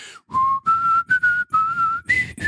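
A person whistles a TV theme tune as a clear, steady melody of about six sustained notes with short breaks between them. The pitch shifts slightly from note to note and ends on a higher phrase. No talk is heard.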